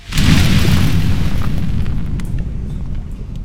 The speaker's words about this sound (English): Fire erupts out of the statue in front of you.